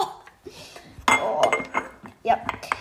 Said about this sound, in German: Deckel drauf und zu köcheln beginnen lassen.